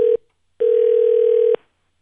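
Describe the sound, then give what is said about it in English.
Telephone line tones while a number is dialed: a short mid-pitched beep, a brief gap, then a longer steady tone at the same pitch, loud and alone. “I don't even know if I dialed the right number.”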